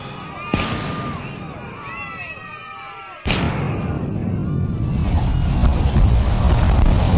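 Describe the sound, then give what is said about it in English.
Bomb explosion sound effect in a drama: two sudden, sharp blasts a few seconds apart, the second giving way to a loud, sustained roar of rumbling noise. “What was that? Was that a bomb?”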